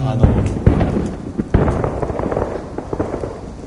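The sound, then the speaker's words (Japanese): Fireworks explode during a theme park's nightly show: a few sharp bangs stand out among many rumbling, crackling bursts as people talk over them. “これディズニーランドの花火だっていうだけで多分ここの人たちみんな納得してる。毎晩これ鳴って別の理由で鳴ってたらなんか苦情もんですよね。”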